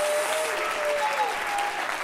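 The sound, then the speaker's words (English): A church audience clapping hands during worship, with dense, continuous applause that stays steady and loud throughout. “Somebody clap your hands to the Lord.”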